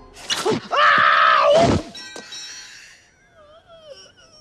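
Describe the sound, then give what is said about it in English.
A man slips on icy front steps and falls backwards, letting out a loud, strained, wavering yell. A brief sharp knock follows, then fading tonal ringing. “Moving round to the front of the house, Harry doesn't notice the glistening ice on the front steps until he's flying backwards through the air.”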